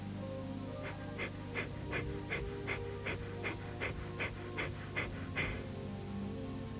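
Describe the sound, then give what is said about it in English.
Kapalabhati yoga breathing: many quick, forceful nasal exhalations in a steady rhythm of about three per second, soft and breathy over a faint sustained tonal drone, then stopping. “Breathe in and practice the Kapalabhati breathing.”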